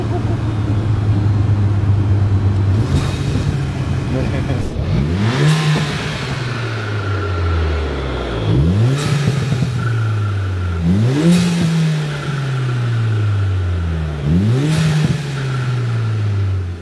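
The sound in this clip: A car engine fitted with a new intake setup revs and accelerates in a few loud surges. Each one climbs sharply in pitch, then eases back into a falling drone, and the engine stays loud throughout.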